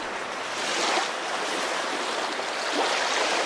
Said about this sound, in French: Les vagues caressent doucement vos pieds.